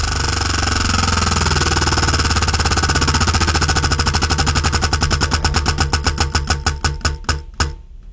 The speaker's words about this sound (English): are you ready to spin the wheel?